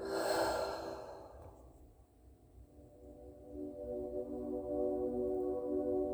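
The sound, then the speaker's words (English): Deep breathing during a guided exercise: a long, airy exhale fades out, then breath noise swells again. A steady, sustained musical drone continues underneath throughout. “One more time, deep inhale and deep exhale.”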